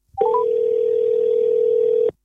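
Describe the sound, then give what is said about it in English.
A mobile phone sounding as someone calls it: a few quick stepped electronic beeps lead into one long, loud, unwavering tone that holds for about two seconds and then cuts off sharply. “So where exactly do I find the phone? It should be near the coffee table. That's where I was using it last night. Can't see it. I'll ring it.”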